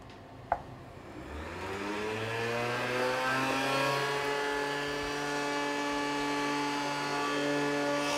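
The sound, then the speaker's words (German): Ice cream machine churning rhubarb puree into ice cream: a brief click, then a steady motor drone whose pitch climbs over the first few seconds as it spins up and then holds, even and fairly quiet. “Nur 10 Minuten braucht die Eismaschine, um das Rhabarberpüree in cremiges Eis zu verwandeln.”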